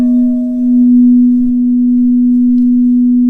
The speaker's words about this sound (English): Things about a bowl is the slow fade. So to really honor that silence after the bowl ends, let me play it and let it fade out.